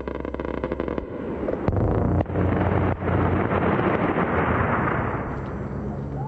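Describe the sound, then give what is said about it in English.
Heavy gunfire and explosions from suspected AC-130 gunship strikes on rebel targets near a mosque in Najaf after midnight: a loud, dense, continuous roar of blasts and rumbling, broken by a few sharper cracks. “an NPR interpreter in Najaf recorded the sound of suspected AC-130 gunships launching strikes against suspected rebel targets near the mosque.”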